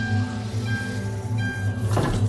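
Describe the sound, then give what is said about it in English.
An East Midlands train from King's Cross to Edinburgh in motion, a steady low rumble with a droning tonal hum, and a brief hissing burst near the end. “Welcome aboard the East Midlands train service to Edinburgh. We'll be leaving King's Cross at 1 o'clock”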